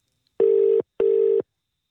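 Telephone ringing tone on a call placed to a repainted phone box on the Isle of Lewis: one double ring of two short, steady, even-pitched buzzes separated by a brief gap, loud and alone against silence.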